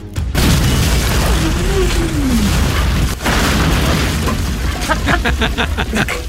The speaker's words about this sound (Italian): Poi una bomba a mano in tasca, ma anche lì... per il Vietnam!